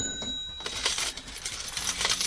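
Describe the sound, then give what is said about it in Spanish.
A cash register sound effect: a short ringing tone, then a busy, rattling metallic jingle like coins being handled. It plays alone and stays at a steady loudness to the end. “Acompañas a Puyol siempre de una caja. Él nunca tuvo una caja registradora, ¿eh?”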